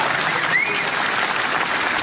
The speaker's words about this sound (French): Bravo, vous pouvez applaudir si vous voulez.